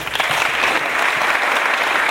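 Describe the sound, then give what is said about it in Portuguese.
Audience applause from a crowd at a live music event, a dense, steady clapping that stays loud and even from start to finish, with no voices over it. “Uma salva de palmas para Jurema.”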